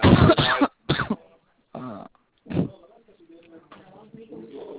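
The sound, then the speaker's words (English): A person coughs in a few harsh bursts mixed with throat clearing, followed by quieter talk. “you're coughing again.”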